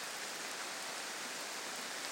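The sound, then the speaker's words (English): Heavy rain pouring down during a thunderstorm, a dense, even hiss that continues unbroken throughout, fairly faint, with no voices. “This rain's getting heavier and heavier. Listen to this.”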